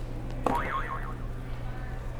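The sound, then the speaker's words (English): A short cartoon-style buzzer sound effect is hit during a children's question-and-answer session. A single wobbling, warbling tone rises in then fades over about half a second, above a steady low hum, with no talk. “Can you hit another buzzer?”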